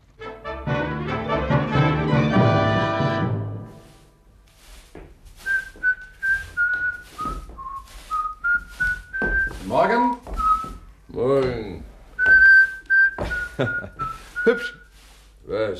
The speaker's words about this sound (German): Die Melodie, die Sie da pfeifen.